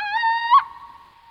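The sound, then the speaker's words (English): A little owl calls once with a drawn-out, whistle-like note that holds a steady pitch. It flicks briefly upward near the end, then trails off into a faint tail. “The little owl is perhaps a little less threatening, but it's still enough to stop you in your tracks.”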